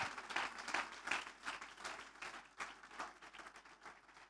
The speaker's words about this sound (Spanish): Fuerte ese aplauso de alabanza al Señor.